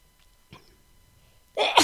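A single sharp, loud sneeze breaks out at the end after near silence with a faint intake of breath, its burst split into two quick pulses.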